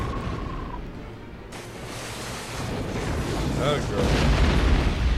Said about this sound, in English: Oh, wow, that chimney was not meant for having a fire lit in the bottom of it. No. Super flammable chimney.